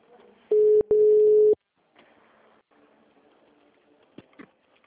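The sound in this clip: A telephone ringback tone plays during a call as a steady, low electronic tone in two loud stretches with a brief gap. Faint murmuring and a few soft clicks follow.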